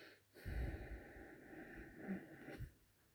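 Slow breaths in and out during a meditation exercise, soft, airy and fairly faint, with gentle swells as the air is drawn in and let go.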